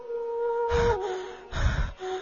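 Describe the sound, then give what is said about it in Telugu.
Heavy panting from a man out of breath after running in fright: two loud, rough breathy gasps, each under a second, with a steady tone running beneath. “నాకు ఆయాసం వస్తోందిరా, నేను ఇంకా పరిగెత్తలేను.”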